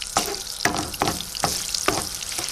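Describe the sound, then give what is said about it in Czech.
Diced bacon fat and lard melt and sizzle in a frying pan before rabbit is browned. A steady, bright frying hiss runs throughout, with about five sharper crackling bursts recurring roughly every half second. “Připravíme si pánev a rozpustíme špek trošku sádla.”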